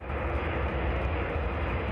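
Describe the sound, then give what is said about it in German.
A US military aircraft lands on a runway in Riga, Latvia, in the evening, giving a loud, steady engine roar that holds without a break, with no voices. “Ein Rollfeld in der lettischen Hauptstadt Riga. Es ist bereits Abend, als eine US-Militärmaschine wieder landet.”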